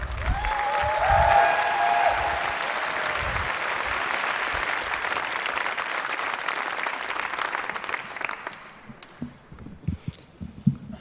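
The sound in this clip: Warm audience applause for a performer at the second preliminary round of a stage contest in northern Germany. Loud, dense clapping gradually thins and fades out, leaving a few scattered thumps at the end.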